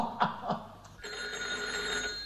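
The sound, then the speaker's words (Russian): A telephone bell rings with a bright, continuous metallic trill. It starts partway through after a few soft thumps and carries on steadily to the end, with no talk. “Кто же подойдет к телефону?”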